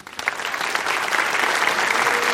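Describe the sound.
Applause from an audience welcoming a debater, many hands clapping that swell quickly from a soft start into a full, steady roar.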